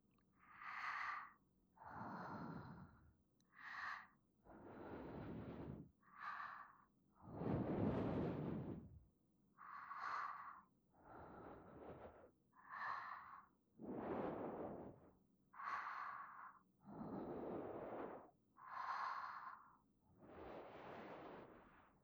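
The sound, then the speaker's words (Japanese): Soft ASMR breaths blown into the listener's ears, many slow, airy exhalations in a steady rhythm, each a hushed hiss, with short gaps between them and no talking. “まずは吐息でお耳を温めて、”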